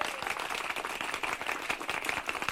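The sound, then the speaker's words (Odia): An audience claps at a street magic show, a steady patter of many hands that runs continuously at moderate loudness. “चलो सब भाई मने बजा ताली”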